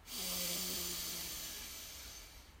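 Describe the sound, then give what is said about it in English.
A deep breath, long and airy, starting strong and slowly thinning out over a couple of seconds, with a faint voiced tone early in the breath. “Deep breath in. And out.”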